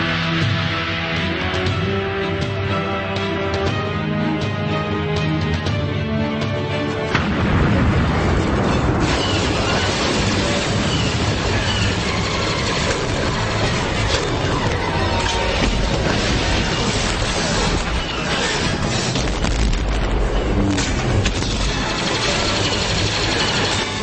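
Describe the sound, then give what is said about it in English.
A sci-fi laser weapon battle with explosions between clone soldiers and alien warriors, loud and dense throughout. A tonal, musical stretch at the start gives way to a sustained, noisy roar of blasts and booms. “real laser battle right here between clone stormtroopers and the Geonosians.”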